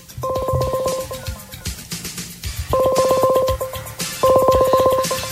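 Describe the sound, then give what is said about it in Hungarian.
Dialing tone of a Google Hangouts voice call: three bursts of rapidly pulsed two-pitch electronic beeping, separated by short gaps, with light tapping clicks between them. “Csinálok egy hanghívást, de koppintok.”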